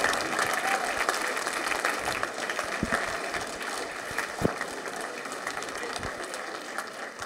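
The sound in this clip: Audience applause welcomes speakers at a morning church gathering: dense, steady clapping runs through the whole clip, with a few sharper individual claps standing out.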